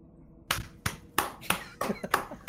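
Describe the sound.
Hand clapping from a woman in the audience after a performance, in a tabletop role-playing scene: a slow, uneven run of sharp, fairly loud single claps with short pauses between them, heard alone without talk.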